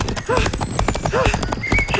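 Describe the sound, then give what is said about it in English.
Horse hooves clip-clop during a fox hunt, a quick uneven beat of many hoof strikes that runs beneath lively talking voices throughout. “But this horse, if it is a horse, has got a mind of his own!”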